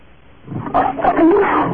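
A lion roars and snarls as its mane catches fire from a match. The rough growl begins low and faint, then swells into a loud, sustained roar that continues to the end.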